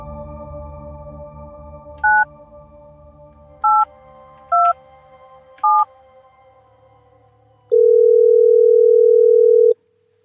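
Internet messenger call dialing tones: four short two-note beeps at uneven spacing over a faint low hum, followed by one long, loud, steady tone that cuts off near the end.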